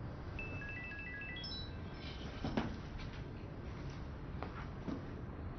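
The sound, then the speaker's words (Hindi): A phone ringtone sounds for an incoming call: a quiet electronic melody of short notes stepping upward for about two seconds. A low, steady background rumble continues underneath, with a few faint knocks afterward. “निगार का phone है, तो जवाब दो ना।”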